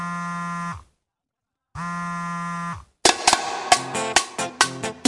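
A phone ringing with an incoming call: two loud, flat buzzing ring bursts separated by a short silence, followed by a punchy percussive ringtone tune with sharp hits.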